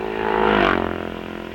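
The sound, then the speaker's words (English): A Norton motorcycle passes through the start of a road race, its engine giving a loud buzzing roar that swells to a peak and then eases off in a single pass. “Riding a Norton, went through the start”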